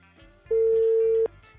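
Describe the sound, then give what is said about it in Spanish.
A single ringback tone sounds as a phone call is placed to a contestant on a call-in program. One steady, constant mid-pitched beep lasts under a second, loud over a faint background murmur. “nos contestará no nos contestará? Estamos llamando a don Maximiliano Inda.”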